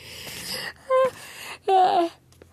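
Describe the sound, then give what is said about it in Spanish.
A voiced yawn from a person narrating a prison story, a drawn-out, wavering vocal stretch with breathy onset, preceded by a shorter vocal sound and quiet breath noise. “lo siento, tenía que bostezar.”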